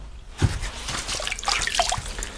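Water splashing and trickling as fireclay pieces are soaked while setting stove tiles: a small splash, then continuous sloshing with light drips throughout.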